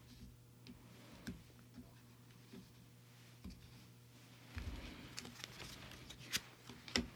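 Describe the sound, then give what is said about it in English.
A deck of oracle cards is cut during a card reading, heard as faint, soft ticks and a few crisper snaps that grow busier in the second half. “Okay, I'm going to cut the deck.”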